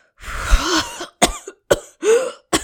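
Coughing from dust caught in the throat: a long, rasping cough is followed by a few short, sharp coughs in quick succession, loud against silence.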